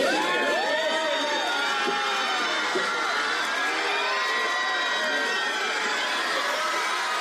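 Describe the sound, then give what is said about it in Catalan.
A crowd cheers and screams at Brad Pitt's arrival outside the Hotel Maria Cristina in San Sebastián, a dense, continuous wash of high-pitched shrieks and shouts with no pause. “Així han rebut a Brad Pitt davant de l'hotel Maria Cristina, on ha arribat abans del que estava previst inicialment.”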